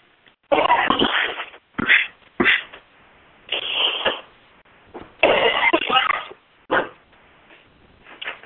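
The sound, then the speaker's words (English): Harsh coughing and throat clearing from a man clearing his lungs, in a series of loud, raspy bursts of varying length separated by short pauses, with no talk in between. “Again, excuse me, I'm still cleansing the lungs, but I'm really not sick.”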